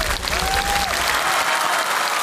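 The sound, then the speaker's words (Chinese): An audience applauds after a man walks barefoot up a ladder of blades in a traditional Yao ritual: loud, dense clapping that holds steady throughout, with a brief tonal voice-like sound near the start. “完全没有受伤，掌声送给吴大哥。”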